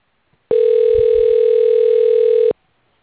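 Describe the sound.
A telephone call is transferred to voicemail with a single steady, unbroken tone at one pitch. The tone lasts about two seconds and starts and stops abruptly.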